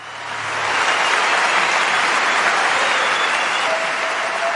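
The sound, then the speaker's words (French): Audience applause welcomes a singer onto the stage at a regional cultural festival, swelling within the first second into dense, steady clapping that holds evenly loud to the end. “j'aimerais que vous accueilliez chaleureusement sur le podium une chanteuse exceptionnelle de la région, Nadia Wald.”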